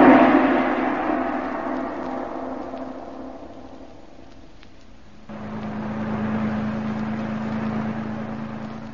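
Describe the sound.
A car drives along on the way upstate, its steady engine drone slowly fading before a louder, even hum cuts back in abruptly and continues to the end.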